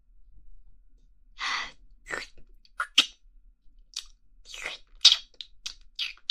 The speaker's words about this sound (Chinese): 哎呀，这个黑色的大脚掌雪糕味的也太好吃了